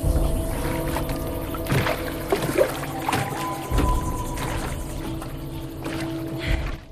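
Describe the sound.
Oars splash as a rowboat is rowed along a wide, quiet river under hanging branches after rain, a few soft, irregular strokes rising faintly over a low, steady water background.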